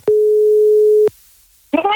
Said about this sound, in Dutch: Dus ik begin rond te bellen.